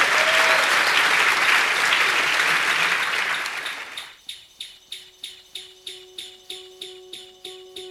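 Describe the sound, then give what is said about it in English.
Audience applause welcoming a guest at a live event: a dense, loud wash of clapping that fades out after about four seconds, followed by music with a steady, pulsing beat and a sustained tone. “Give him a warm welcome.”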